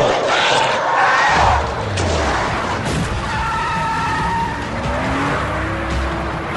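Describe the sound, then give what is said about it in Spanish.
A car is driven off hard during a zombie-attack game scene. The engine roars and the tires squeal and skid through a loud, dense mix, with strained cries underneath. “¡Pon el coche en marcha!”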